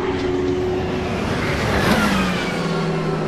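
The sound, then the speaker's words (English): Engine roar of a Peugeot race car passing at night among the race leaders, a loud steady drone that swells briefly midway before settling again. “That was a Peugeot. That was all the leaders.”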